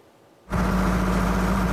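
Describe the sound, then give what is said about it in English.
A diesel engine driving irrigation pumps on a potato field in Fiumicino, near Rome, cuts in after a brief quiet moment and settles into a loud, steady drone with a low, constant hum. “his voice drowned out by the diesel engine of the irrigation pumps”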